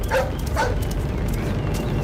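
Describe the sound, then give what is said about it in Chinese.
A big yellow dog barks twice in quick, sharp yelps while chasing someone, over a dense low rumble of movement. “眼看大黄狗就要追上陈旺了”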